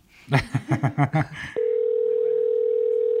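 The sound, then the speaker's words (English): A telephone dial tone sounds while a call is being placed. A short burst of talk comes first, then a steady single-pitched hum starts abruptly and runs on unbroken. “All right, so we're going to call Kelly first.”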